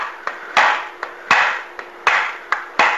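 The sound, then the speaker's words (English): Eight sharp metallic taps from a tool striking a stuck part, with lighter and heavier blows alternating at a steady rhythm. Each hit is followed by a short ringing decay. “so I'm going to kind of tap at it here.”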